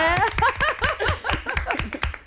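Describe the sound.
An audience claps with many sharp, quick hand claps, mixed with laughter and voices throughout.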